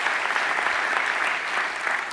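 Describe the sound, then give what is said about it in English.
Audience applause at a church service, honoring students: steady, dense clapping from a crowd, even in loudness throughout the short clip. “Let's give a round of applause. All the students, everybody that did anything with Study Day.”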